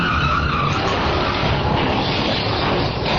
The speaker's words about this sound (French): Et merde, t'as vu ce carambolage? C'est le troisième aujourd'hui.